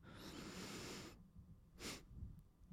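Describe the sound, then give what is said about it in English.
A person takes a deep, drawn-out inhale for a breathing exercise, a steady airy rush lasting about a second, then after a pause sips in one short, sharp extra breath of air, quietly and alone. “There's a breathing exercise I learned recently from a friend of mine. And it's to take a deep breath. And then once you've reached your end, you go like a bit more, just take a bit more. So it's, I don't know if you'll be able to hear this, but you kind of go.”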